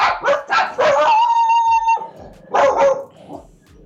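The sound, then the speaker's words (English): Dogs bark at home at people passing in the neighbourhood: a quick burst of sharp barks, then a drawn-out, tonal howl-like whine, then a few more loud barks. “What are they barking at? Is it something interesting?”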